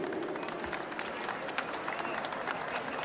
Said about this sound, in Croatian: Molim vas jedan aplauz za ove divne ljude.